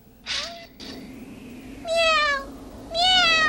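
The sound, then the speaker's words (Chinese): A cat meows a few times, the last two calls long, loud and clearly voiced, with a shorter, fainter meow near the start. “大熊有一只猫哎， 猫在哪里啊？”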